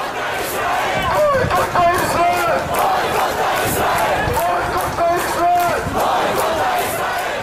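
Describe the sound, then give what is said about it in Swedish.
Pro-Palestinian demonstrators march through Stockholm streets protesting against Israel, a large crowd shouting rhythmic chants in loud repeated phrases with no pauses. “så här lät det i helgen när pro-palestinska demonstranter gav sig ut på Stockholms gator i protest mot Israel”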